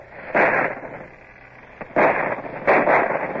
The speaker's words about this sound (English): Stop the guns. Fire as your guns bear. Steady aim. Now!